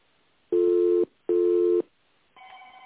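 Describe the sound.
Telephone tones sound while a caller waits for an answer: two steady, evenly spaced beeps of about half a second each, followed by a fainter, higher tone that begins and holds. No voices are heard.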